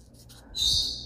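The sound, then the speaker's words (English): A paper strip is torn in one short, bright, rasping rip lasting about half a second, heard alone after a near-silent start. “Let's grab one of those strips that we're haunted by, one of these guys, and we'll put it in there. Maybe we'll even tear it. I tear the top. And I tear the bottom.”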